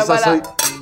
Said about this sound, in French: Trinquons à ça. Chin chin.